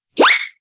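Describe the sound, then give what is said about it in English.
Cartoon sound effect for slipping on a banana peel: a single quick rising swoop like a slide whistle, loud and brief, alone against silence. “Oh, it was slipping on a banana peel.”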